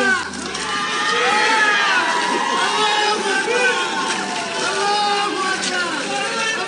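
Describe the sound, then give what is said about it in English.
Crowd cheering and shouting outside the Christchurch High Court after a historic sentencing for the mosque attacks: many overlapping voices, loud and sustained throughout, with whoops and calls rising and falling in pitch. “What you just heard there were the sounds of a crowd cheering outside the Christchurch High Court after Justice Cameron Mander made history handing down New Zealand's toughest”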